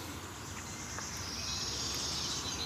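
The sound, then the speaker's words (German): A wood warbler sings in a forest: a high, sustained trill-like song that grows slightly stronger in the second half, over a faint, steady background hiss. “Aber ihr könnt schön den Waldlaubsänger inhalieren.”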